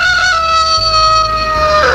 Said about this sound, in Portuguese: O galo cantou.